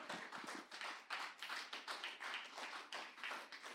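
Applause from a church audience for a newly baptized member: quiet, steady clapping from a small group, the individual hand claps blending into a soft, continuous patter.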